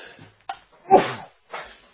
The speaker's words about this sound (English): Sneezing can never wait till the breaks, I guess.